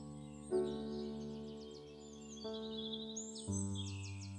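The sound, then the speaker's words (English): Birds sing in faint, quick high chirps and trills above sustained, soft musical chords that change a few times. “hear the birds singing”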